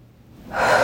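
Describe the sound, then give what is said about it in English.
A deep inhaled breath taken during a guided tapping exercise, starting quiet and swelling into a loud, airy rush of air through the second half, with no talking. “Big deep breath.”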